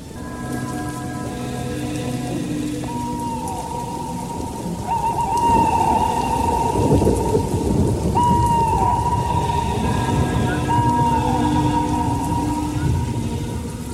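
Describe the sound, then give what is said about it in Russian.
A heavy, brief evening downpour of rain hisses densely and steadily, with low thunder rumbling underneath and sustained tonal drones layered over it. “Под вечер пошел проливной, хотя и непродолжительный дождь.”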